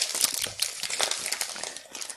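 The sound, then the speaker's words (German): Crinkling, rustling of a package being handled, a dense stream of crisp papery crackles running steadily throughout at moderate loudness, with no voices. “was raschelst du denn da rum? Hä? Ich habe fürs Paket geschaut.”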